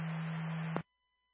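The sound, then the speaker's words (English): Radio dispatch cancel tones: a steady low tone holds for under a second, cuts off with a click, and leaves only a faint thin whine. “Did you guys copy cancel tones?”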